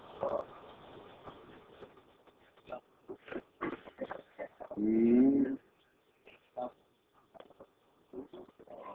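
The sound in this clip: A pigeon about to fly coos once, a loud throaty burst in the middle, while people talk intermittently around it.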